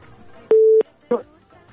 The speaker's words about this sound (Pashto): اړیکه یې هم له بده مرغه چې قطع شوله